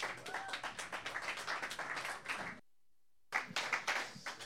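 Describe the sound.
Audience applause welcoming a singer about to perform an original song: dense, steady clapping from many hands, cut by a short silent break, then resuming briefly, all fairly quiet.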